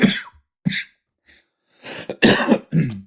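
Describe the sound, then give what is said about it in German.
A smoker's harsh morning cough: two separate barking bursts, then a faint one after a pause, and finally a rapid cluster of loud, raspy hacks. “Oh, das war mein morgendlicher Raucherhusten, Entschuldigung.”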